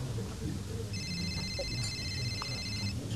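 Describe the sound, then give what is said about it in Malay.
A telephone rings with an incoming call: a faint, steady, high electronic ringtone lasting about two seconds, sitting over low background rumble. “Siapa pula yang call ni?”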